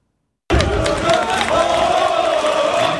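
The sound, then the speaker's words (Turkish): Loud, sustained chanting from members at Fenerbahçe's election congress in a stadium amid tension, bursting in suddenly after a brief silence and continuing as a dense, steady roar of many voices. “Stadyumda üyeler arasında gerginlik çıktı. Aziz Yıldırım ve Hakan Safiye tezahüratların bitmemesiyle kongreye ara verildi.”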